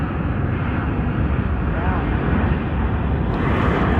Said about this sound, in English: Also the plane here, pretty close. Humongous.